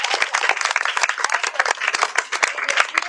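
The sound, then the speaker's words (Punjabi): Loud applause from an audience follows a recitation of a Punjabi poem. Dense, irregular claps go on steadily throughout. “Very good ਬਹੁਤ ਅੱਛੇ ਜ਼ੋਰਦਾਰ ਤਾੜੀਆਂ ਬਈ”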